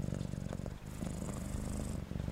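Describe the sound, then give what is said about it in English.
A cat purrs in a steady, low, rumbling stream of rapid pulses, continuous and fairly even in loudness throughout, with no voices. “looked up at her with his bright green eyes and started to purr,”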